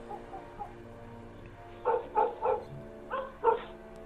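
A dog barks in a yard at night, five short barks in two quick groups, fairly faint over a steady low hum.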